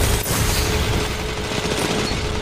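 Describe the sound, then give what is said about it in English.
Submachine gun fire in a shooter video game: a dense, sustained rattle of shots that is loud and steady throughout, with a sharp crack near the start. “It's a sniper god. Watch out. Dude, submachine gun.”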